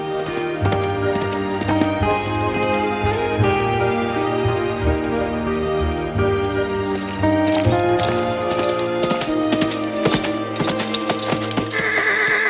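Horse hooves clip-clop continuously during a ride, joined by neighing and whinnying, dense and loud throughout with no talk.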